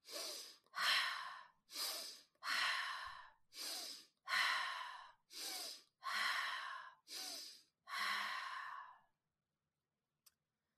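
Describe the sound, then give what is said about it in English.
Loud, airy connected breathing practice: inhales and exhales run together in a steady, rhythmic pattern without held pauses. About ten forceful breath sounds are followed by silence and one faint click. “making whatever noise feels right for you. And you're going to do it on a continual pattern, not stopping or pausing at the end of the inhale or the exhale. It sounds like this.”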